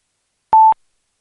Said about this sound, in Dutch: Ja, en ik heb de repeater waar de toon vandaan kwam even uitgeschakeld.